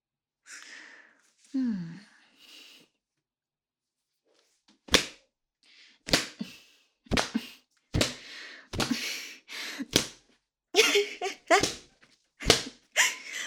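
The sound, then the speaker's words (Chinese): Many sharp lashes of a whip crack in an irregular series, each a loud, abrupt snap with a short tail, after a stretch of soft, breathy vocal sounds. “只能再用这根鞭子继续调教你了。”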